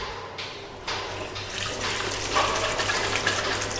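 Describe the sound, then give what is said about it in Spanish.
Water gushes from a fountain spout into a stone basin, a steady rushing splash that swells slightly and keeps on without pause. “Pedro Zavala mientras sus manos apretaban la incoercible y fresca columna de agua del surtidor, y cayó de bruces, la cara entre el brocal, en donde el agua, coronada de espumas, rebosaba y huía cantarina.”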